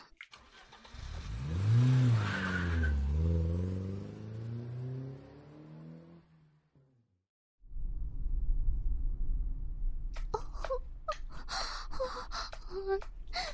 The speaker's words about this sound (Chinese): 赶紧开车。